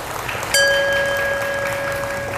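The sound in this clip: Audience applause at a Buddhist talk, a steady patter of clapping, joined early on by a single bell strike whose clear tone rings on beneath the clapping.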